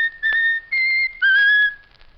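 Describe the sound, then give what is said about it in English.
A bird whistles a tune on command: three sustained, clear whistled notes in a row, each held at a steady pitch with brief gaps between them, followed by a fading tail. “Whistle your favorite tune. Whistle your favorite tune.”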